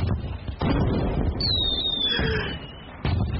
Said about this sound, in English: Incoming mortar!